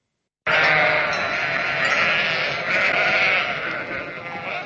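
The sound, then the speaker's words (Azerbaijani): Sheep bleat as they wait to be slaughtered for the Qurban (Eid al-Adha) holiday. Loud, sustained bleating starts after a brief silence and carries on, slightly wavering, to the end, with no talk over it. “Bu sabah Qurban bayramı günündə qurbanlıq məqsədi ilə seçilmiş və kəsilmək növbəsini gözləyən qoyunlardır.”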